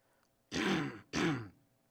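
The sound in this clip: A person clears their throat in two loud, rasping bursts, one right after the other, with no talk around them.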